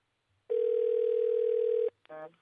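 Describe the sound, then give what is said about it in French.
A telephone ringback tone as a call is placed from Portugal to a French number: one long, steady, even tone lasting over a second, then a short pause before a voice begins. “J'essaie de rappeler Annie.”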